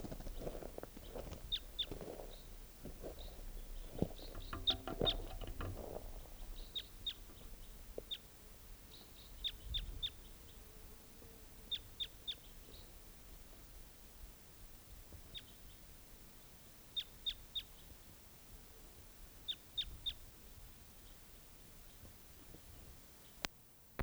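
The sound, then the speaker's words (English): Bird calling in short, high chirps, with many brief calls scattered throughout and some low rumbling noise during the first few seconds. “Oh, bird.”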